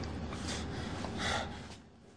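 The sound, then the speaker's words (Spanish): Heavy, laboured breathing of a man in a security control room, a few harsh, rasping breaths and gasps in quick succession. “En la central de seguridad, John respira trabajosamente.”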